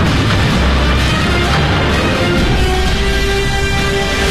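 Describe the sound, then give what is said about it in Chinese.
Naval cannon fire on the Yangtze River during an exchange between army guns and a British warship. A loud, continuous, rumbling roar of heavy gunfire with no single shot standing apart. “长江上响起了炮声”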